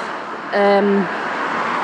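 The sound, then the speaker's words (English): Steady traffic noise on a main road beside a bus stop, a continuous broad roar of passing vehicles. “So the bus stop's kind of like on a main road, as you can hear”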